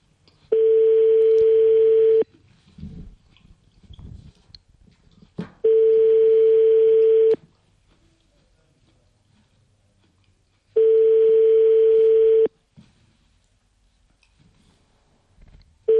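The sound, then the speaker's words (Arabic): Telephone call tones sound while a call is placed: three long, steady, single-pitched beeps of under two seconds each, spaced evenly with quiet gaps of faint line noise between them. “نحن نتصل الآن.”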